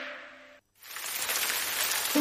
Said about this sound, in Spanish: Atención, que cae la lluvia sobre la superficie de la pista